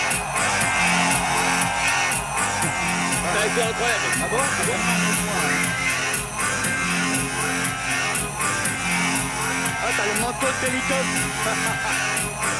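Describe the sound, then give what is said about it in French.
An audience cheers and shouts as it climbs onto the stage to join BBD and a DJ at the end of a show, a dense, loud, unbroken crowd roar with voices throughout. “Comment se termine le show? Comme ça. Avec BBD et un DJ sur scène et tout le public qui monte sur la scène et qui vous rejoint.”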